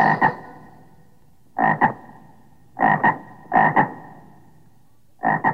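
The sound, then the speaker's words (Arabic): Frog croaking in five loud, raspy double croaks, each pair of quick pulses separated by pauses of uneven length, with no other sound. “ضفدع ضفدع نق نق، اسمع اسمع نق نق”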